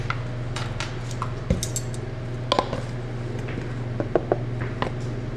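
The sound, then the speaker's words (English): Dry baking ingredients, sugars and cinnamon, being mixed in a bowl: a steady soft hiss of stirring with scattered light clinks of a utensil against the bowl. “I like to mix the dry ingredients first, just to make sure that everything's evenly distributed in there.”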